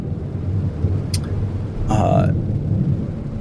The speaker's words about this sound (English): the rain is now starting to just lash down